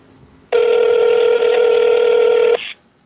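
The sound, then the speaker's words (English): A telephone rings during a live phone call, heard as one loud, steady buzzing tone lasting about two seconds. A short, fainter tail follows before the line goes quiet. “I'm going to call him live on air, live on air phone call. See if we can wake him up. And see if you can hear his phone ringing.”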